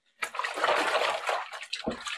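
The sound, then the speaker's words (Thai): Running water splashing as a piece of cloth is rinsed until the water runs clear. A steady, rushing splash begins after a short silence, dips briefly, then surges again toward the end. “ล้างจนกว่าน้ำเขาจะใสเลยนะคะ”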